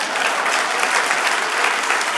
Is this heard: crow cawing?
no